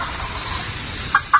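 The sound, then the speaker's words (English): A wild turkey gobbler yelps in fall: two short, high calls close together near the end, standing out clearly above a steady faint hiss. “See, a lot of people don't realize you can call fall turkeys. When you separate them in the fall, they want to get back together. That's a gobbler yelp. Jake yelp.”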